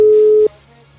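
A telephone busy tone on an unanswered call sounds as a single steady, mid-pitched beep lasting just under half a second. It then cuts off to a low, quiet hum.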